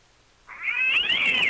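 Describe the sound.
A cat scream sound effect plays from a computer: after a brief silence, one sustained, shrill yowl that climbs slightly in pitch and then eases down, loud and alone.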